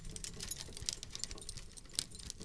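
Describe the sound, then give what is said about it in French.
Hardened steel cuffs clink against a ceiling fixture, producing many small, bright metallic jingles and taps in an irregular stream, faint and with no voices. “Cliquetis de l'alliage glacé au-dessus de nos têtes, nos quatre bras tendus vers cette nouvelle suspension plafonnière”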